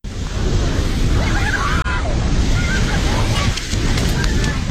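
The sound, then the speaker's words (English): Roaring flood torrent sweeping over buildings in a Himalayan river valley in Nepal's Nuwakot district, a dense, loud and continuous rush of churning water with no letup. “And this is the sound of the torrent that swept over buildings in the valley.”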